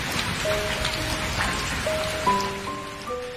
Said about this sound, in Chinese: 我这条音乐是为了，如果有一天直播是下雨天的话，大家可以感觉到在直播间也有雨声。